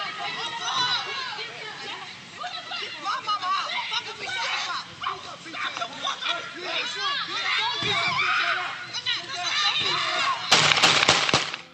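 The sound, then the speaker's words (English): Gunshots ring out during a police shooting: a few sharp, loud cracks close together near the end, following a long stretch of overlapping voices and crowd chatter. “Here's another angle of the shooting from across the street. So you see the cop approaching. Listen to the audio.”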